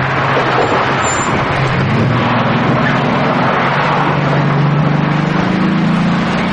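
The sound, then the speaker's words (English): A van's engine runs with a loud, continuous rumble and road noise that holds steady throughout, with no voices. “Robert throws his stuff into the van and climbs in. Frost backs up the van and drives away.”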